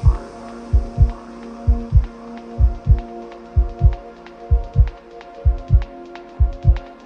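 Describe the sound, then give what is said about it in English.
Heartbeats as a steady run of paired low thumps, lub-dub, repeating at an even pace, loud and muffled over a constant low hum. “heartbeats. I can feel heartbeats.”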